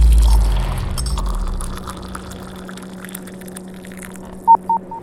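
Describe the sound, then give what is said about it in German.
Incoming-message alert in a science fiction drama: three short electronic beeps at a steady mid pitch near the end, the first a little longer, over a low droning hum. “Eingehende Nachricht.”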